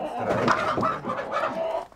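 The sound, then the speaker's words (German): Laying hens and a rooster cluck and squawk in panic while being caught, a dense, continuous flurry of agitated calls with no pause. “Vier Legehühner und ein Hahn müssen mit.”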